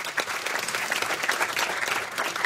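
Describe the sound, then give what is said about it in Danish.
An audience applauds a guest, a university anthropology lecturer, arriving on stage, with a dense, even clapping that holds steady throughout. “Skal vi lige give ham en kæmpe hånd?”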